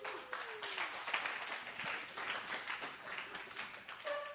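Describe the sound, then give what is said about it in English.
Audience applause fills the whole stretch, a dense, even patter of many hands clapping at moderate level with no clear peaks or break. “Give them a big hand.”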